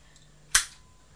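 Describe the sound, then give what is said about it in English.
A single sharp crack of a toy cap gun being fired, loud and abrupt, with a brief ringing tail that fades within a fraction of a second against near silence. “I'm shooting. Look. He's shooting.”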